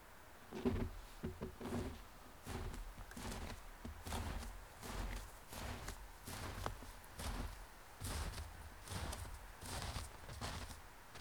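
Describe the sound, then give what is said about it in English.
Footsteps crunch through snow as a person walks away from the microphone, many soft, steady steps at an even walking pace, with no talk. “So we set up the microphone in the snow and walked away from it, calling in different directions.”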